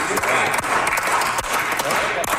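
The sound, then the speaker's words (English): Slow clapping from politicians during a long-running legislative sitting: a dense, steady wash of claps with a few sharper strikes standing out at irregular moments. “Those slow claps, an indicator of just how long politicians have been at it.”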